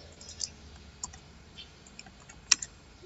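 Faint computer keyboard keys being pressed for copy, paste and tab: a few soft, scattered clicks over quiet background hiss, with one sharper, louder click near the end.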